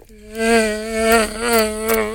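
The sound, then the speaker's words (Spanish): A voice imitates the whine of an African mosquito: a loud, sustained buzzing drone lasting about two seconds that wavers gently in pitch, with nothing else heard. “El mosquito del África. ¿Qué? Es un mosquito”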